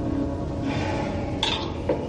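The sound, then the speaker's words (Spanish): Soft clinks of a utensil against a plate as food is served from a can in a dark home kitchen, with two brief taps standing out over a steady, low background hiss. “Se gira y se echa más comida en el plato.”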